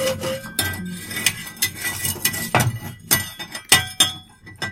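Hot coal is taken out of a stove for smoking herbs, with many irregular metallic clinks, taps and scrapes of varying loudness and no talking.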